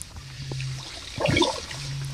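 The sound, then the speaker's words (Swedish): Kayak paddles splash in water, heard as a brief sloshing burst in the middle of a short, quiet stretch. “det är så härligt att höra de där paddelljuden”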